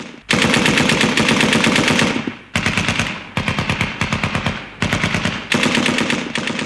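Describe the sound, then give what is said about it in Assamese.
Rapid automatic gunfire rattles through a chase, one long, sustained burst followed by several shorter bursts with brief gaps between them. The shots are loud and dense, and no voices are heard. “Srikanth sir, আমি তেওঁলোকক ঘেৰি পেলাইছোঁ। ছাৰৰ গাত গুলি লাগিছে।”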